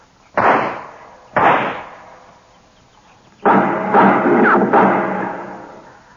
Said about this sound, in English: I'll put a couple of shots in there.